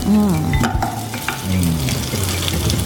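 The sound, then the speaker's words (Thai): Pork sizzles loudly as it is stirred back into a pan in its own rendered fat, a dense, continuous crackle with scraping stir strokes throughout and no voices. “ต้องทอด มีขั้นตอนแล้วก็อร่อย เดี๋ยวเอาหมูใส่กลับเข้าไปนะครับนี่นะครับ”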